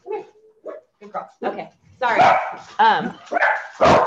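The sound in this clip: Dogs bark and yip indoors in a string of short bursts, softer yelps at first and then louder, fuller barks in the second half, with a person talking around them.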